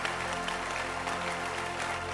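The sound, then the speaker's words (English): An audience applauds a performer's gift with a steady, even wash of hand clapping that holds the same level throughout and stays fairly soft. “think she deserves a beautiful hand clap. I don't mind you standing to applaud this beautiful gift.”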